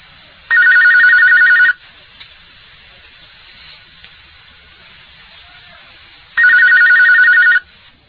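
A telephone rings twice for a call-in question during a religious question-and-answer session by phone, each ring a loud electronic trill lasting about a second, separated by several seconds of quiet hiss.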